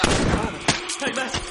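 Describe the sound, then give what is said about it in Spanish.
A gunshot in a horror film scene, fired at a huge leaping spider: a loud, sharp blast standing out from dense, rumbling noise. “Una araña enorme salta ante Jim. Oli dispara.”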